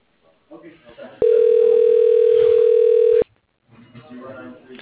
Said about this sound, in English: Dialing.